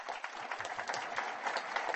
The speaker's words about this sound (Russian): Поздравляю вас, аплодисменты вам.